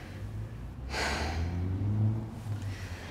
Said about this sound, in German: Okay, noch ein letztes Mal tief einatmen.